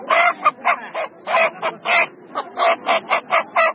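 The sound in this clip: Chickens at a market give many loud, harsh, nasal squawks in a quick, uneven series, each call short and separated by brief gaps, with no talk over them.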